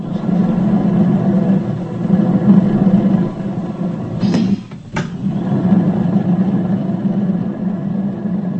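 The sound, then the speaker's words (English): Steady motor hum of a pottery wheel spinning a small lump of clay into a mug in a ceramics workshop. The drone holds low and even, with a brief dip and break near the middle, and no voices. “It grows out of a little lump of clay spinning round and round on a pottery wheel.”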